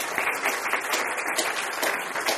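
Audience applause welcoming a guest onto the stage: a steady wash of many hands clapping that holds at an even level for the whole stretch, with no voices over it.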